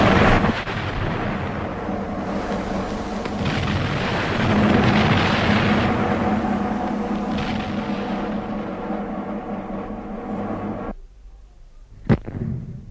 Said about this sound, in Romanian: Să se mai trag o salvă!